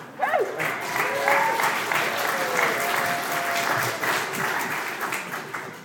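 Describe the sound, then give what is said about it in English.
Applause from an audience, a dense, steady wash of clapping that fills the whole clip at an even, fairly loud level. “Hey, that was great! Applause!”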